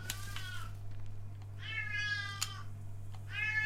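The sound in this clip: A cat meowing in a few drawn-out, bright, harmonic-rich calls with gaps between them, over a steady low hum.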